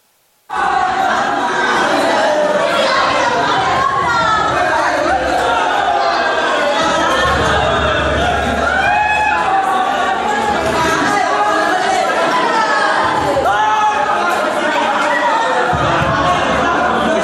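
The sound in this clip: Happy chatter from a large group of people who have just learned buses are coming to take them home, many overlapping voices with chuckles and laughs, steady and fairly loud throughout.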